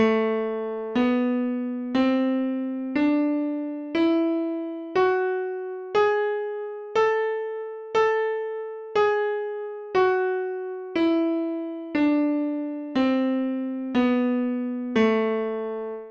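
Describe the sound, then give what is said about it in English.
A melodic minor scale, with raised sixth and seventh, played as sixteen evenly spaced notes, one per second, climbing through eight tones and then stepping back down; each note is bright and harmonic-rich with a gradual decay, heard alone. “The third minor scale is called the melodic minor scale, and it not only has a raised 7th, like the harmonic minor scale does, but it also has a raised 6th.”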